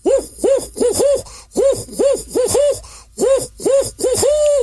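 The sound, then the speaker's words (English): A person imitates a barred owl with about a dozen rounded hoots in three rhythmic groups of four. The final hoot is drawn out longer, and no other voices are heard. “like the barred owl for sure, that you've probably heard before, that makes the hooting sound, kind of goes like this”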